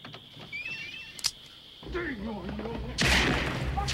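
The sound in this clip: Gunshots: a sharp crack, then a louder, rougher burst of fire near the end, with men's voices heard in the scene.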